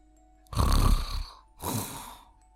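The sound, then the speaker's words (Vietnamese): Loud snoring from a sleeping prisoner in a cell: two long, rasping snores, the first louder and longer, the second following after a short gap, alone against near silence. “Đó chính là tiếng ngáy. Nhưng kẻ nào lại dám ngáy to như vậy ở trong này?”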